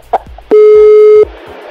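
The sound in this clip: A telephone tone sounds as a call is placed: one loud, steady beep that lasts under a second.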